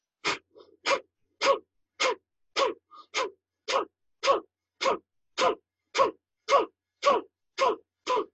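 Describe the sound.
Bhastrika breathing: forceful, breathy nasal exhales and inhales alternate in a fast, even rhythm of nearly two per second, each burst loud and clipped, with brief silence between and no talking.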